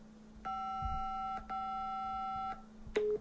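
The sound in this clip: A telephone call tone sounds as two long, steady electronic beeps separated by a brief gap, followed by a shorter, lower beep.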